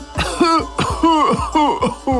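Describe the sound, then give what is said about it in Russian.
A human voice performs an annoyed cough for a talking barn padlock: several voiced, rasping coughs in quick, uneven succession, each a short harsh burst with a throaty tone. “С досадой кашлянул амбарный замок и продолжал.”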